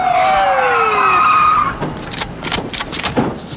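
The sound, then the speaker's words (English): Police cars skidding as they arrive, a loud, high tire squeal with falling tones for about a second and a half, then a cluster of sharp clattering impacts. “Police cars swarm the area, blocking off the street at both ends.”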